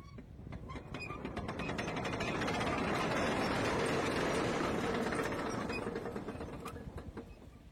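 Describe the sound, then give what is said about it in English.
A mechanism opens large gates with a grinding, ratcheting mechanical clatter. It swells into a loud, dense rumble with rapid ticking over it, then eases slightly near the end. “Open the gates!”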